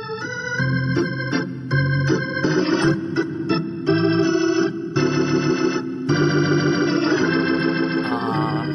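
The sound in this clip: Ballpark organ at an Atlanta Braves baseball game plays a lively tune of short, punchy staccato chords and sustained notes, loud and clear throughout, with no voices.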